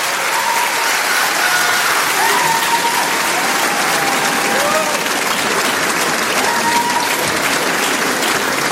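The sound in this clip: Applause and cheering from the concert audience at the Trianon greet the bassist, a loud, steady wash of clapping mixed with crowd voices that stays even throughout.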